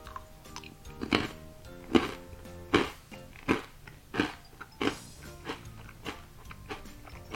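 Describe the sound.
Crunching bites into a miso-flavored Saitama rice cracker made with Fukaya leek by Kitayama Seika: about ten sharp, dry crunches at a steady, unhurried pace, each with a brief crackle, and no talk.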